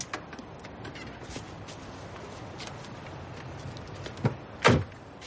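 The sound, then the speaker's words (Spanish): A car door shuts with one solid thud near the end, a fainter click just before it, over steady low background noise; the driver has just parked beside a grey car on a snowy day and stepped out. “baja y cierra la puerta.”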